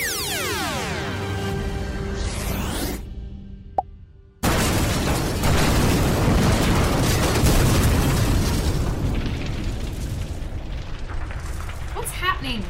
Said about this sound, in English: Remember this little thing? Don't you dare! Laser gun.